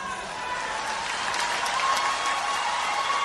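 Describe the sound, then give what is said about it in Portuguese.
A round of applause from a crowd: dense, even clapping that holds steady and swells slightly toward the end, with no talk over it. “E a outra salva de palmas.”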